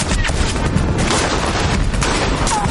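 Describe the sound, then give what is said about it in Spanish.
Machine guns fire at soldiers in a war drama, a dense, continuous roar of battle noise with no clear breaks between shots, steady in loudness throughout. “Los sublevados disparan con metralletas a los soldados rusos.”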